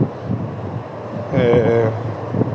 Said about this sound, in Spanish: ¿Qué más? Aparte del viento.